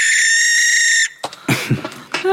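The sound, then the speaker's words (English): A barn owl call: a shrill, sustained screech holds steady for about a second, then gives way to scratchy, uneven noisy bursts, and a brief rising squeal closes it. “Oh, that's the sound of the barn owl, of course.”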